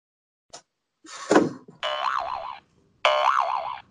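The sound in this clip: Two boing sound effects come from a small sound-switch gadget. Each is a bright, twangy tone with a warbling, wobbling pitch lasting under a second, preceded by a brief click and a dull thump.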